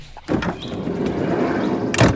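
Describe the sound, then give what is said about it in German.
Sliding door of a VW Bulli van as people get in. A sharp clunk opens a rolling, rumbling slide that ends in a second heavy knock. “So, damit du nicht wieder ausbückst, gehen wir jetzt halt in den Bulli rein.”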